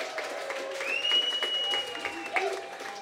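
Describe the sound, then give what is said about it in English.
Audience applause for a performer, a moderately faint, continuous wash of clapping from a crowd with some cheering mixed in. “A huge round of applause for Terrell Lewis!”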